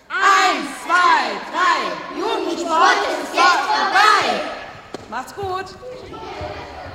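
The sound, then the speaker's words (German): Children from a kids' gym class in a sports hall shout their battle cry together, a rapid series of loud rhythmic shouts in unison, followed by a few thumps and quieter scattered voices. “Da gibt es noch einen Schlachtruf, wurde mir gesagt, den wollen wir natürlich hören.”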